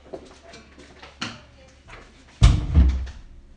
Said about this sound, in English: I'm just going to close the door.